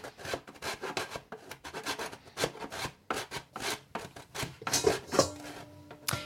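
A whole sheet is torn off while preparing popcorn in a wok, heard as a dense run of many short, crinkly ripping and rustling bursts. It is fairly loud, with no talk over it.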